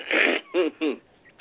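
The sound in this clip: Harsh, noisy burst of phlegmy coughing and throat clearing after a fit of laughter, followed by two short voiced groans, fairly loud and close together.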